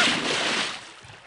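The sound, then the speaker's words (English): A stalactite splashes into the water beside a boat, a short, broad rush of churned water that swells briefly and then fades as the water settles. “A stalactite falls near them, rocking the boat.”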